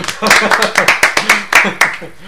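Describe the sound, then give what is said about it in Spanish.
Quick burst of hand clapping from a few people, a rapid, uneven run of sharp claps at fairly high loudness that thins out near the end, with voices mixed in. “Yo creo que se merece casi un aplauso.”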